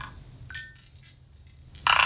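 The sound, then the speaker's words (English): A dice-rolling app plays its digital roll effect: a few short clicking, chinking taps that end in a louder, bright rattling burst. “essentially it rolls those dice and it tells you the total of the dice that you are rolling”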